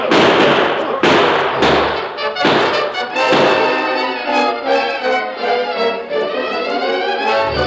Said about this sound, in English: We can all waste a few bullets.